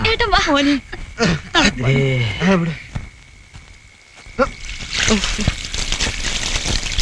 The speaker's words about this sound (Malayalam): വിഷമിക്കാനൊന്നുമില്ല, ഓള് 2 തൊട്ടി വെള്ളം കോരി തലയിൽ ഒഴിച്ചു കൊടുക്ക്.